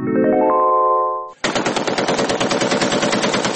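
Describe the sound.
A gun fires a sustained burst of rapid automatic fire, many sharp shots in a fast, even rhythm. The burst follows a steady, held tonal note and silence, and carries loud to the end.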